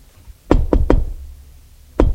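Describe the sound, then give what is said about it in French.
Knocking on a door: three quick, dull thuds in a row, a pause, then a single further knock, each low and solid with a short ringing decay. “on a frappé à la porte.”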